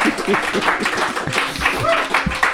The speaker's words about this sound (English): And your applause is going to help me welcome our Poem Talkers today.